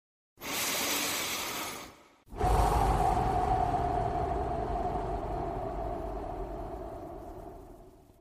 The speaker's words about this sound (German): Ich atme.